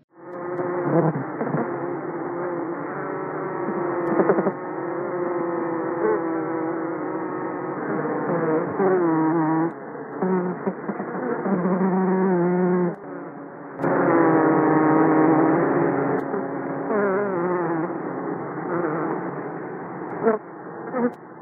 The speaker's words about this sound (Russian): Вместе они соединяются в богатый тембр звучащего улья.